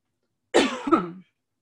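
A cough from a tickle in the throat: one harsh, raspy burst followed at once by a second shorter hack, heard alone with no talking.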